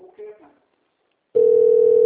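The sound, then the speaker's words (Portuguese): Telephone dial tone: a steady, unbroken electronic tone that starts abruptly after a short stretch of speech and holds loud and even to the end. “É telefone, né? Gosto aqui do telefone.”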